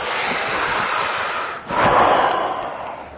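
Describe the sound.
Breathing in and out during a breathing exercise, two long, airy breaths with a brief dip between them, the second fuller and louder, with no talk.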